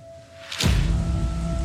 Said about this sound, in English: it starts to rain. In these canyons, rain quickly triggers deadly flash floods.